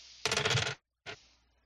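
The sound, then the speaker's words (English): Three dice rolled for a tabletop role-playing game check: a dense clatter lasting about half a second, a short silence, then one brief final clack. “So you're gonna be rolling 3 dice because you just took some willpower damage.”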